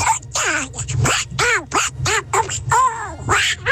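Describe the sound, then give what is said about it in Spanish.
A voice imitates a cartoon duck talking in a rapid run of raspy, nasal quacking syllables. The syllables are closely spaced and fairly loud, with no clear words. “mi talento es hablar como el Pato Donald.”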